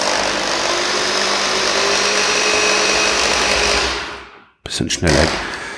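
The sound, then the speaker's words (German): A motorized stirring noise whirs loud and steady for about four seconds, then cuts off abruptly. A short voice follows. “Ich will einfach mal gucken, ob das hier hörbar ist. Deshalb spreche ich jetzt auch einfach erstmal in dieses Rührgeräusch nicht rein.”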